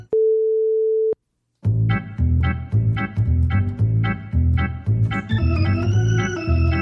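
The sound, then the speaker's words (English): A single steady mid-pitched electronic beep lasting about a second, followed by a brief silence and then music with a rhythmic beat. “Pause the audio at the beep”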